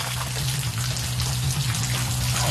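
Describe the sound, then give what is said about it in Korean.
Water runs steadily out of a greenhouse irrigation pipe where a fitting has come loose, a continuous splashing trickle with a low hum beneath it and no pause. “야, 여기 왜 물이 흐르지? 아, 이게 빠졌다.”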